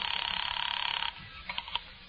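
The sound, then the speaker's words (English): A telephone call is placed for five cents: a buzzing, rapidly pulsing line tone sounds for about a second, then stops, followed by a few faint clicks. “Expense account, item 4, 5 cents, phone call.”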